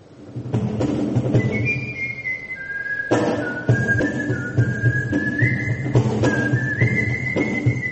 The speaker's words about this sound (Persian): اولین گردهمایی نوازندگان سوت در ژاپن